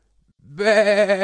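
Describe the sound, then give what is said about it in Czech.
A sheep (a little ewe or lamb) gives a single wavering bleat that starts abruptly and holds steady with a tremulous vibrato for just under a second, loud and alone. “ovečka zabečela”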